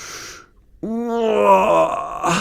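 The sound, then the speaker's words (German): A person voices a dinosaur waking up with a drawn-out groaning yawn while stretching. The loud, low moan starts abruptly after a brief quiet, holds, then trails off. “Er reckt und streckt sich. So erholt war er schon lange nicht mehr. Hermann gähnt noch einmal kräftig”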